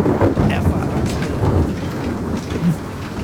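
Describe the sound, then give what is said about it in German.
Thunder rumbles during a thunderstorm, a continuous low, broad roll mixed with a rain-like hiss that holds at a fairly even, loud level throughout. “Es donnert schon wieder.”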